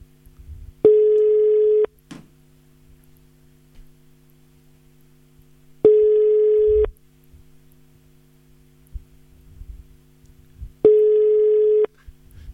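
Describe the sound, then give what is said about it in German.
Telephone tones from a call attempt: three steady, loud one-second tones spaced about five seconds apart over a low constant hum, with a small click after the first tone. “War eine super Idee von Ette, dass wir sie nochmal versuchen sollen anzurufen”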